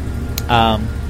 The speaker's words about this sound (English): I want to come here and have some nice Partagas, and there's endless noise pollution right across the street from me. Look, now here's a riding mower. Does it ever end?